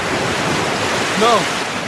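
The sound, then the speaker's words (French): A storm at sea roars with wind and crashing surf, a dense, continuous rushing noise; a brief tonal cry rises over it past the midpoint. “C'est la tempête du téléfilm Entre terre et mer de Ballet.”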